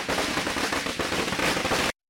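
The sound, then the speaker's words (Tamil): Firecrackers burst as supporters celebrate a political leader's homecoming after the rain has eased, making a dense, rapid, loud crackle of many overlapping pops that continues steadily and then cuts off abruptly. “Jayalalithaa அவரது இல்லத்தை வந்தடைந்த போது மழை சற்று ஓய்ந்திருந்ததால் தொண்டர்கள் வெடிகளை வெடித்து கொண்டாடியபடியே”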